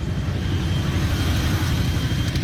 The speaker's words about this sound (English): I decided to drive out of Delhi and head to the farmlands